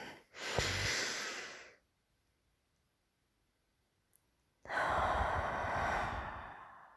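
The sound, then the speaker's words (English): Deep breathing from someone resting their head on another person's chest and breathing in their scent: two long, soft, airy breaths separated by a few seconds of near silence and one tiny click. “rest my head right on your chest here. And I will just breathe your scent in.”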